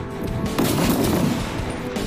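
Gunfire from a sniper team's rifles at a timed assembly-and-shooting drill: loud, noisy blasts with a sharp surge about a quarter of the way in, continuing rough and dense before easing, without speech.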